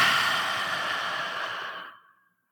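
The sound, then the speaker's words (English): A deep exhale following a nasal inhale, heard alone as a soft, steady breathy hiss that slowly tapers off into silence. “And let's take one more deep inhale through the nose. And exhale.”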